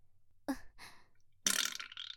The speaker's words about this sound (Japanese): ついおならが出ちゃったわ。